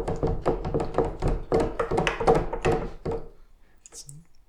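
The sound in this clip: Footsteps going down a staircase just after a door is locked: a steady run of many heavy, hollow thuds that stops after about three seconds, then a brief faint clatter.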